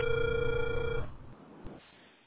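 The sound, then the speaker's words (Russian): Telephone ringback tone plays while a caller waits for an answer on a call to a technical support line. A steady, continuous tone lasts about a second and then cuts off, leaving faint line hiss and a soft click. “Абонент еще не взял трубку. Пока продолжается дозвон,”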